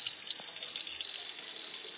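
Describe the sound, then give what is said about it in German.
Water poured from a watering can into balcony flower pots, a steady, even gush and splash that runs without a break for about two seconds, fairly soft, with no voices. “Er nimmt eine Gießkanne und schüttet Wasser in die Blumentöpfe.”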